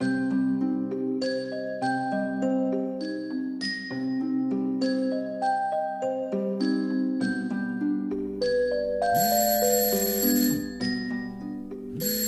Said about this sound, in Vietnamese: tôi bị đánh thức bởi tiếng chuông báo từ cái điện thoại để đầu giường